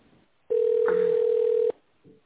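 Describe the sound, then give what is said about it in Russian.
A single long telephone ring tone sounds on the line while a call is being transferred. It is a steady, low, loud beep of just over a second, followed by near silence. “Или оставайтесь на линии. Ваш вызов переводится на контакт-центр.”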